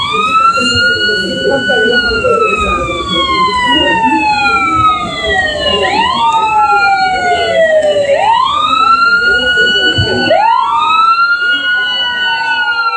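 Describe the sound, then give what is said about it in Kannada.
A loud emergency siren wails without a break, its tone gliding slowly downward and then swooping sharply back up in repeated cycles, over a steady low rumble. “ಏನಿದು siren sound?”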